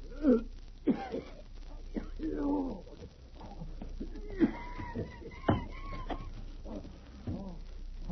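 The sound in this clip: A man gasps and wheezes for breath in poisonous vapor in a cellar, with a string of strained, groaning breaths and rasping intakes, uneven and moderately loud over a low steady hum.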